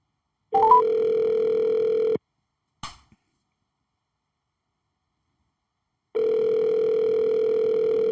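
Telephone tones as a call is placed: a steady buzzing dial tone, then a short click and a stretch of silence before the tone returns.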